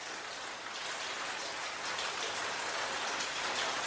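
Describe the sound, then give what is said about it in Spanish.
Steady rain falls as a dense, even hiss of countless drops. It stays constant and unbroken throughout, with no voices. “Gota a gota, en mi cabeza, siento, las noto, empieza a llover.”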